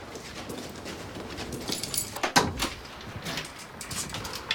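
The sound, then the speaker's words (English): A white painted door to a flat is unlocked with a bunch of keys and opened, giving one firm clunk midway through amid soft rattling and shuffling. “Jess takes a bunch of keys from her coat. She opens a white painted door and they come into the hallway of a flat.”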